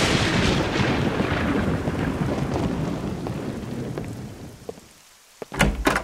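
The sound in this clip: Heavy rain hisses steadily under deep, rumbling thunder through most of the stretch, then the downpour dips before a few sharp, loud bursts at the end.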